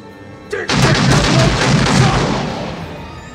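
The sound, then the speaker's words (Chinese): Gunshot in a comedy film scene: a brief sharp crack followed by a loud, booming blast that sustains and slowly fades over the next few seconds. “I'm sorry I can't hear you. Don't fire the gun while you're talking.”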